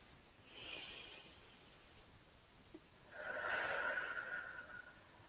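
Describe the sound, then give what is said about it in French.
A group takes a deep breath together on cue: one soft inhale, a short pause, then a long, breathy exhale. The breathing is faint and no one speaks. “Et nous allons prendre une grande inspiration tous ensemble.”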